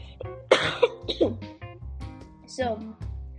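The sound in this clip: A person clears their throat and coughs in a few rough, throaty bursts with short voiced grunts between them.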